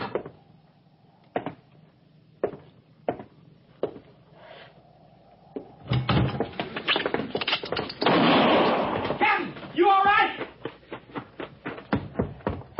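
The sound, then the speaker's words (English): Gunfire as someone shoots a rat: a few sharp, isolated cracks spaced apart, then a louder, denser burst of noisy commotion. “Just a rat, Harrison. I shot it.”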